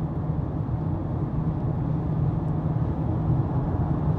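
Low, steady road rumble from a car driving along, an even engine-and-tyre drone that continues unbroken with no voices over it.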